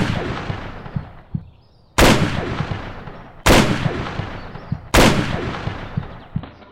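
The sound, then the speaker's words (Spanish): Gunshots are fired at a fence: three loud, sharp shots about a second and a half apart, each trailing off in a long decaying rumble. The tail of an earlier shot fades at the start. “Tienes que disparar a la barda. No me apuntes a mí”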